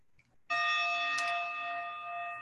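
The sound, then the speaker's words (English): A gong struck once, its bright, shimmering tone starting suddenly and then ringing on with steady layered overtones that fade only slightly, heard alone against near silence. “In a moment, you're going to hear a gong”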